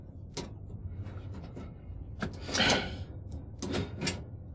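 A lock being picked open: scattered sharp metallic clicks and ticks, faint at first, with a louder scraping rattle partway through and a few more clicks after.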